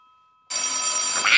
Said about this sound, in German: Ach, ich hasse es, wenn das Telefon klingelt.